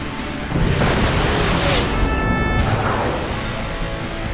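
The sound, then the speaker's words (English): A sci-fi boom tube portal opening with a loud, sustained roaring boom and thin ringing electronic tones. It swells in after a brief quieter start and stays dense and heavy, easing off slowly toward the end. “He's opening a boom tube. He's going to escape.”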